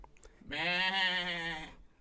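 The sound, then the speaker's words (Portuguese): A goat gives one sustained, wavering bleat lasting just over a second, clear and alone against a quiet background. “Foi então que ela encontrou uma cabra, que estava lá viajando no mundo da lua.”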